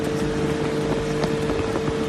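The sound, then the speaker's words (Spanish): Engine drone of a dune buggy driven across sand in complete darkness, a steady, loud rumbling hum with a constant tone and wind-like rush, unbroken across the whole clip. “Pero se ha ido a montar en buggy completamente de noche.”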